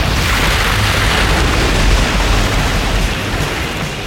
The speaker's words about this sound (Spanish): Hubo un estallido como el de una vejiga que explotase.